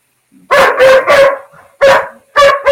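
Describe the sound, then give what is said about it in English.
Several dogs barking in a quick series of about five loud, full barks, three close together, then a pause and two more, with no talk over them. “Those are the dogs.”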